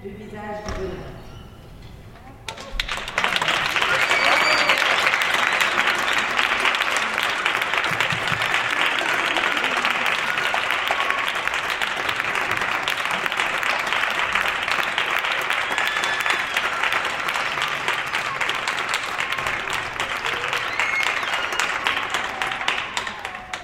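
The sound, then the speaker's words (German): Applause from neighbours on their balconies for a teenage girl rapping and dancing further up the street: steady, dense clapping that swells in after a quieter few seconds and holds loud to the end, with some voices mixed in. “Aber auch ihr danken alle mit Applaus.”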